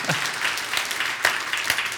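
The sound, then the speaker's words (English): Congregation applause at a One Life Church service: dense, steady clapping from a crowd that fills the whole clip at an even, loud level, with a few sharper claps standing out. “Come on, One Life Church, put your hands together. For those who are joining us online this morning, throw your hands together.”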